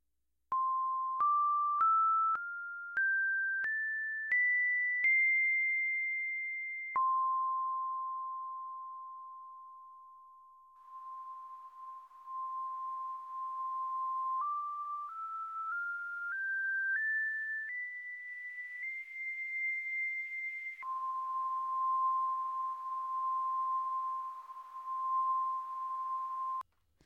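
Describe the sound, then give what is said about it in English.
Synthesized scale through a resonant filter: first seven rising pure tones, each struck by an impulse and decaying, then a long fading tone; then noise excitation drives the filter up the same scale in steadier, slightly hissy tones. “and then we will turn off the impulse excitation and turn on a noise excitation and play the same scale. So that sounds as follows.”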